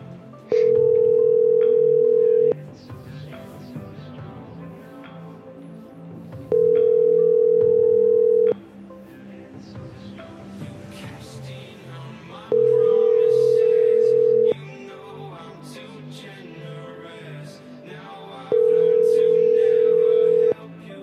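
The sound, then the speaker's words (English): A telephone call rings out to a pizza restaurant: four steady ringback tones, each about two seconds long and evenly spaced, over a continuous low background of mixed sound. “Let's call the Little Caesars, see what they're saying.”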